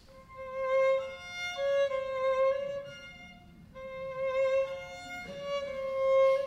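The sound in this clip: A scherzo theme played in a minor key with each note lengthened: sustained, rich harmonic tones form slow melodic phrases with a brief dip in loudness midway before the line continues, moderately quiet and without voices.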